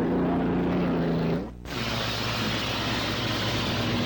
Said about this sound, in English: All five boats are out and running.